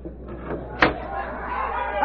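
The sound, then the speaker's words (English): A window being opened gives one sharp knock or thud partway through, short and fairly loud over a low, steady background hum. “Wait till I open the window.”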